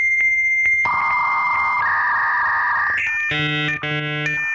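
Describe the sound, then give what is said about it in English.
A dial-up modem connects with a series of loud, steady electronic tones that shift in pitch, then breaks into harsh, buzzy multi-tone bursts for the final seconds. “Does it do the whole dial up sound? No, not anymore. Not anymore. I remember that. That's well, let's roll that clip.”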